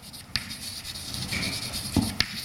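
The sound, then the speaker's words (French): Writing on a board during a mathematics lecture, faint scratchy strokes with a soft rubbing texture and a few brief sharp taps as the marker or chalk meets the surface, with no talking. “Donc, je vais l'écrire ainsi.”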